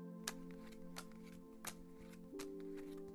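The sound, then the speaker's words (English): Playing cards being flipped over during a card game, a few soft, crisp flicks spaced roughly evenly apart over a steady tonal background. “Come on, let's play. I'll flip the cards over.”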